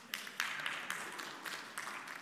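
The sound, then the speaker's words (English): Faint, scattered claps from a church audience: a few separate sharp hand claps spread across a short, quiet moment. “Those who have cameras, let's get a picture of everybody who just clapped right there.”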